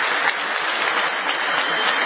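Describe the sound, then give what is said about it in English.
Standing ovation applause, a thick, continuous patter of many hands that stays level throughout, sounding thin and somewhat muffled in tone. “Yay! Having a standing ovation for that.”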